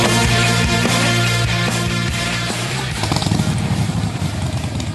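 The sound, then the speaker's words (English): Harley-Davidson Pan America motorcycle engine revving, a loud, low, throbbing rumble that runs steadily at first, then turns rougher and more pulsing in the second half. “Who needs a rev up for Harley Heaven? The Harley Davidson Pan America is coming to Harley Heaven in Melbourne, Dandenong and Ringwood.”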